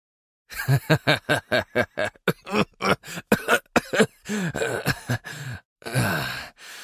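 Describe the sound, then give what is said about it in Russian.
A man's hearty laughter breaks into coughing: a fast run of short, loud voiced bursts gives way to rougher, more spaced coughs and a final longer hacking fit, with no speech. “Внезапно он заливисто рассмеялся, но смех обернулся кашлем.”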